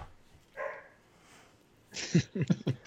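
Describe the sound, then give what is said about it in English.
A dog barking: a quick run of several short, fairly low barks near the end, preceded by one softer, higher sound. “Sorry about my dog. I don't know what he's barking at. Probably barking at my takes.”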